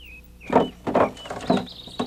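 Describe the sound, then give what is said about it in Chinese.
A lid dragged off a well in three scraping grinds at a steady pace, each a short, moderately loud rasp. “接下来，你再把水井的盖子也拿掉。”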